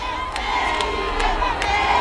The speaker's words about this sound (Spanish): ahí está don Felipe y doña Leticia, que están recibiendo de nuevo pues el cariño del pueblo melillense. Vítores, aplauso, grito de Felipe, Felipe,